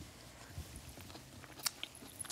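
Crunchy Swiss chard is chewed during a meal, faint crisp bites and wet mastication with a few sharper crunches standing out near the end.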